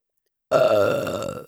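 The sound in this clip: A woman's single long, loud, voiced burp that holds a steady, deep tone for about a second before tapering off, heard alone after a silent start.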